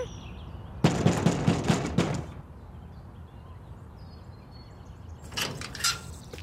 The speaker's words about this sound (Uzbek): Shu mana 47. Taqillat.